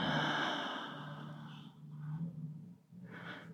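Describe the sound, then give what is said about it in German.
During a guided breathing exercise, a long, soft breath is let out through the mouth as a breathy sigh, then fainter breath sounds follow. “Den Atem halten und jetzt über den Mund wieder ausatmen.”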